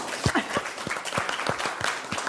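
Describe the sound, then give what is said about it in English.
Sparse clapping from an audience after a speaker closes a talk on inequality and climate, faint individual claps landing at an uneven, fairly brisk pace rather than a full ovation. “I gotta love an audience that'll clap for that, man.”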